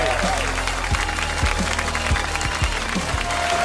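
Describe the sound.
Applause from an audience thanking a guest on a show: quick, crisp claps within a noisy, busy crowd that stays loud and even throughout the short burst.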